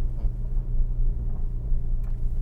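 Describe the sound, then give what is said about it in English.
Steady low road rumble from a car driving on summer tires, a continuous dull drone with no distinct events standing out. “We're driving Dorian Gray today, and we have our summer tires on,”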